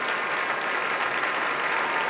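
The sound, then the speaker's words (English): A concert audience applauds pianist Lang Lang after his Liszt encore at the Koussevitzky Music Shed, a thick, continuous wash of clapping held at an even level throughout. “The audience hoping that Lang Lang will come back out on stage one last time, and indeed he does. Open arms. Very appreciative of the reception that he's getting here at the Kuzovitsky Music Shed.”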